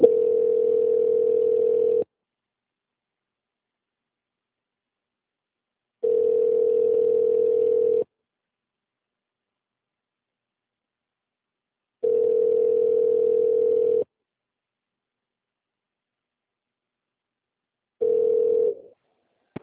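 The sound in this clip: A telephone ringback tone plays while a call is transferred: four steady, mid-pitched buzzing bursts of about two seconds each, separated by longer silences, the last one cut short.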